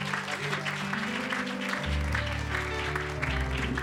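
Congregation clapping in church to welcome a preacher to the pulpit, a steady wash of applause layered over sustained low musical tones.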